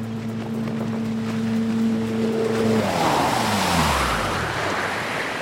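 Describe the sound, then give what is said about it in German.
Outboard motor of an inflatable boat at sea starting up: a steady low hum gives way to a loud, broad engine roar that keeps running, with rushing water noise under it. “Wirf den Motor an.”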